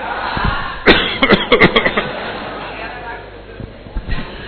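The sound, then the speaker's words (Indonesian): A person fakes a cough, giving a quick run of several short, sharp coughs packed into about a second. Faint room noise follows, with a couple of softer sounds near the end. “Ngapusi ya batuknya ya.”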